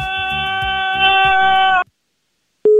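A telephone busy tone follows a caller hanging up on a radio phone-in: a sustained buzzing tone cuts off, a moment of silence follows, then a steady, low, pure beep starts abruptly and sounds alone.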